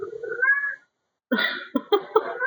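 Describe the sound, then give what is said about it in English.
A cat meows: one drawn-out call, then after a short silence a quick run of several shorter, sharper meows at moderate volume. “This is just hilarious. That cat is just like, God damn it, Kinky, what the fuck? Meow, meow, meow.”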